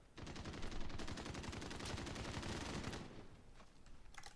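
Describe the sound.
Shotgun gunfire in a video game: a fast, dense run of many shots lasting about three seconds, then a few scattered bangs as it trails off, fairly quiet overall.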